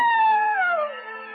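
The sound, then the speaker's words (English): A coyote howls at dawn: one long, wavering harmonic cry that slides steadily downward in pitch, fairly loud and heard alone. “In the dawn, a coyote lifted his nose and howled.”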